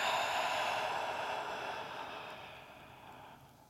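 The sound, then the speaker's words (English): A long, slow breath during a guided breathing exercise: a soft, steady, airy hiss heard alone that gradually fades out over several seconds. “This is going to be a long inhale and a long exhale. Breathing in with me, here we go. And release.”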